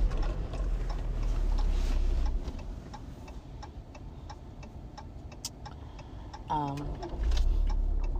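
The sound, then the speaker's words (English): A car's turn indicator ticks at a steady, even pace while the car turns during driving. Low road and engine rumble runs underneath, and a voice is heard briefly near the end. “I'm turning, family. I'm turning. If y'all ain't know, your sis is driving.”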